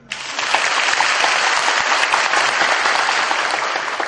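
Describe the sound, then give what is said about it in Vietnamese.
Audience applause at a spoken talk: loud, dense clapping from many people rises at once and stays steady for several seconds before easing slightly at the end. “Nếu mà các vị nghe cho nó hiểu rõ, các vị vỗ tay lớn lên đây nào, cho nó hoạt động lên đây, vui vẻ lên đây. Chứ thấy người đồng mà vỗ tay lớn hơn những đồng bào bên này.”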